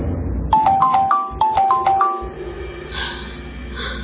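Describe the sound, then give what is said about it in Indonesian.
A mobile phone rings at bedtime, playing a quick melodic run of short, bright beeping notes at varied pitches. The ringtone is followed by a soft, airy hiss. “ketika aku akan tidur, tiba-tiba aku mendengar bunyi handphone.”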